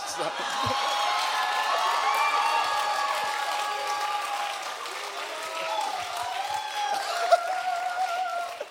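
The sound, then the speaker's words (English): An audience at a live comedy stage show cheers and applauds in a loud, sustained roar of clapping and whoops, with voices talking over it. “There's three people on the stage are the only ones that don't know why everyone just cheered for Schindler's List.”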